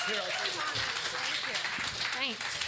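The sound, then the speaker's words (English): Audience applause at a live event as a guest is welcomed, steady dense clapping with cheers and voices mixed through it for the whole stretch. “Guys, put your hands together for Tristan Taormino, the marvelous.”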